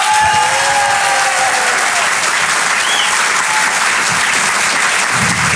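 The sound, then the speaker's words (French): An audience at a stand-up comedy show applauds a comedian coming on stage, with loud, dense, continuous clapping that holds steady throughout and faint cheers rising above it. “Je vous demande de l'encourager très chaleureusement et de faire un maximum de bruit s'il vous plaît pour Thomas Marty.”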